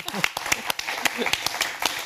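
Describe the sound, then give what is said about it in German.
An audience applauds with many sharp, irregular claps at a moderate level, the individual hand strikes standing out distinctly rather than merging into a wash. “Vielen Dank an euch, dass ihr heute da wart. Und an das gesamte... Und dass ihr auch zuhört und jetzt euch auch selber applaudiert.”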